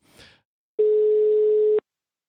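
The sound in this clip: Telephone tone heard while placing a call: one steady, low electronic tone held for about a second, clean and alone, after a faint brief rustle.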